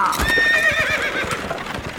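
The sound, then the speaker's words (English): Hooves clip-clop steadily as a horse-drawn chuck wagon sets off across the prairie, with a high, wavering neigh early on over the rhythmic hoofbeats. “Hop into my chuck wagon and let's get moving. Here we go.”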